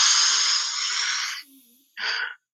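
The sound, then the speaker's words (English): A forceful breath drawn through the nose as a nasal breathing exercise: a long, loud, rushing sniff lasting over a second, then a pause and a second, shorter burst of breath. “You could do this, the nasal breathing, just similar to the last breath we took, where we did that forceful inhale through the nose.”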